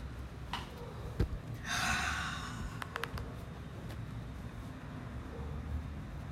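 One deep, airy breath, soft and faint against a low steady hum, lasting under a second, with a few quiet clicks around it.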